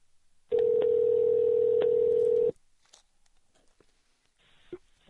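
A telephone call rings with one long, steady electronic tone of about two seconds, clear and loud. Quiet faint sounds follow.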